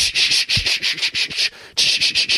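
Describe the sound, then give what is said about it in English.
Sandpaper rubbing on a surface in quick, rhythmic back-and-forth strokes, a harsh hissing rasp that repeats many times with a brief pause midway. “Sandpaper. Sandpaper. We use this to sand things. So sandpaper is paper with a very rough surface on it.”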